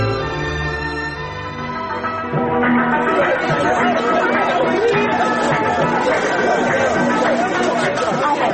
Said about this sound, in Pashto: سړی مشی تا څومره ګڼه ګوڼه ده چیرې کینم؟